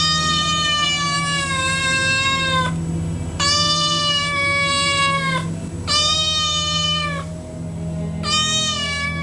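A cat that has climbed up to a window meows four times, each a long drawn-out cry with a steady pitch that dips at the end, over a constant low hum.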